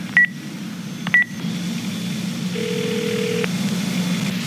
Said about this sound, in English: Let me call the number back. Just to be sure if it's really who I think it is.